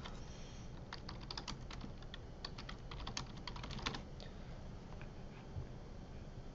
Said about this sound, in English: I typed in Upper McCungie, or I typed in McCungie Plumber, right?